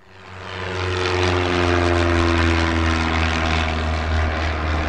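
A propeller airplane's engine drones steadily at a small airport in Willows, California, a loud, even hum with a low, buzzing tone that swells during the first second and then holds constant with no voices.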